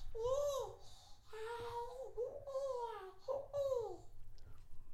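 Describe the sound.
A baby babbles and coos in a crib, a few soft, sing-song vocal bursts whose pitch rises and falls, quiet and alone.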